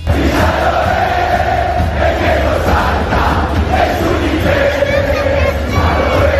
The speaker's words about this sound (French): Dans les coursives du stade de Kansas, les supporters argentins ont fait énormément de bruit en chambrant un petit peu leurs futurs adversaires. Celui qui ne saute pas, c'est un Anglais, entre guillemets.